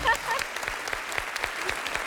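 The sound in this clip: Applause from the audience of a quiz game: a faint, steady patter of many hands clapping for a couple of seconds, with no clear talk.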